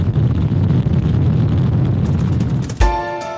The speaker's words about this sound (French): La fusée SLS a décollé du pas de tir 39B du Centre spatial Kennedy le 16 novembre, presque à l'heure dite